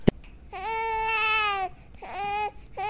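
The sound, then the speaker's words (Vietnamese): A baby wails in a forest with loud, strongly tonal cries: one long cry, then two shorter bursts after a brief pause. A sharp click comes just before the first cry. “bỗng nhiên trong rừng cây truyền đến tiếng trẻ con khóc oa oa”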